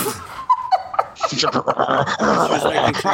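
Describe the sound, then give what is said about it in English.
A dog shut in its kennel whimpers and fusses while trying to get out, its noises mixed with people talking and chuckling. “Is that the dog? Yes. Yes. We put her in her kennel because”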